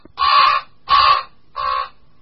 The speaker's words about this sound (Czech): Tento hlas krkavce velkého, jeden z mnoha jeho projevů, docela dobře odpovídá jeho pověsti.